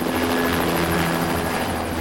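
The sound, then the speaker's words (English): A helicopter takes off with a steady, loud rotor throb and a whining engine, the chopping drone holding even throughout with no talk. “leaves in the helicopter.”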